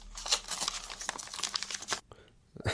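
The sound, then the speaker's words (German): A paper letter envelope torn open by hand: a quick run of crisp tearing and crinkling rustles for about two seconds, a brief quiet gap, then one more short rustle at the end. “Hier habe ich einen Brief bekommen. Den mache ich auch mal eben spontan auf.”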